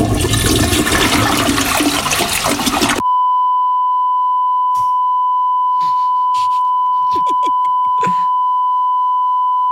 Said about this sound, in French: Ne tirez pas la chasse! S'il vous plaît!